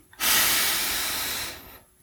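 A single long breath during a guided meditation sounds as a smooth, airy hiss that starts abruptly, holds steady for over a second, then fades to quiet.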